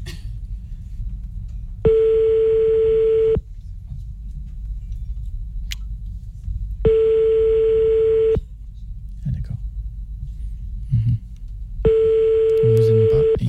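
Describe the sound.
Telephone ringback tone while calling someone's father: three steady mid-pitched tones of about a second and a half each, evenly spaced by longer pauses, over a faint low background.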